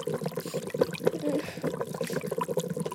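Liquid sloshing and gurgling as a severed head is plunged into a cauldron of slimy potions, a steady wet churning with a few sharper splashes, without speech.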